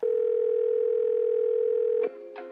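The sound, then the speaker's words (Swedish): A telephone dial tone from an automatic dialer call, one loud, steady, unbroken tone lasting about two seconds, then a cut-off followed by a few brief, fainter tones. “du har blivit uppringd av den kreativa sektorns automatiska uppringare”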